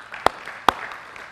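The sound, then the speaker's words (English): Two sharp, isolated hand claps during a church service, a little under half a second apart, each brief and crisp over a low, quiet background. “Do you believe? Amen. If you do, clap your hands.”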